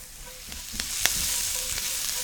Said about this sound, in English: So Brussels sprouts are going into the pan. I'm gonna throw about a teaspoon of salt. I'm gonna do cracked black pepper for this.